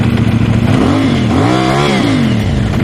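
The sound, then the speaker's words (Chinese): Loud, illegally modified aftermarket exhaust on a vehicle revving: a deep, rough engine rumble that rises sharply in pitch with a quick throttle blip, then falls back to a heavy, crackling idle, steady and very loud throughout. “大家可以听到它这个排气的声音是非常的大。这种车辆在行驶在路上的时候，只要你轻微的一给油、一提速，”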